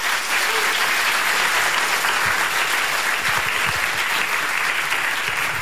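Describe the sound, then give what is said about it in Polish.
Continuous applause at a jazz music awards gala, following a debut award: steady, dense clapping from a large audience that stays at an even, moderate level throughout. “Nagroda za debiut, teraz jeszcze oklaski.”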